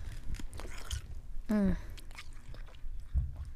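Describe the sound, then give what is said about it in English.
Ice is chewed with crisp, crunchy bites in short irregular bursts over a steady background hiss. A brief voiced sound rises in the middle. “a little ASMR for y'all, the ice.”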